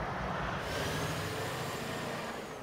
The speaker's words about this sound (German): Das ist der letzte Schwertransport in dieser Nacht mit dem Grundkörper des Krans, 119 Tonnen schwer.